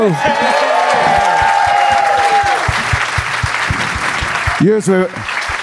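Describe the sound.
An audience cheers and applauds for a band at a live show. Dense, loud clapping runs throughout, mixed with shouts and shrill falling whistles, including one at the start and another near the end.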